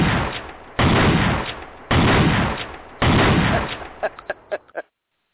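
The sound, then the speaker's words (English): Shotgun blasts: three heavy, booming shots with long rumbling tails, then a quick run of several smaller, sharper pops that fade into silence. “That was Smoking Joe right there with his shotgun.”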